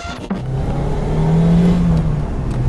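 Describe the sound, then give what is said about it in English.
A small Lotus sports car with a Toyota 1.8-litre supercharged VVT-i engine mounted just behind the seats accelerates on open road. From inside the car, the engine gives a loud, sustained drone whose note climbs slightly, with no talking. “You can probably hear from the sound of the little Lotus, or perhaps I should say Toyota 1.8 litre supercharged VVT-i engine just behind our ears, that we found a bit of open road”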